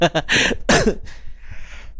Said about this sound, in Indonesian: Ah sampai batuk ya pendengar ya.